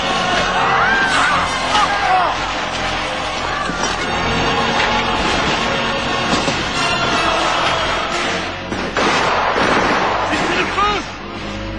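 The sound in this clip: Cannon fire erupts in a battle scene right after the order to fire, heavy booms buried in a dense, continuous din of shouting and cheering crowd voices, with one broad burst standing out near the end.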